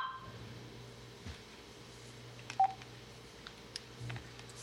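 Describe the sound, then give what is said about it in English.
A landline telephone gives off a few short, faint electronic tones, one sharper beep standing out midway, over a quiet steady background hum. “sorry, is that you? Yeah, sorry, landline.”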